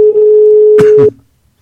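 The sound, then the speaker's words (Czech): A telephone dial tone hums loud and steady while a number is dialed. Two short key-press sounds break into it, and then the tone cuts off into quiet. “jak jsem domluven s panem biskupem Timotejem, tak já mu zavolám, volám panu biskupa”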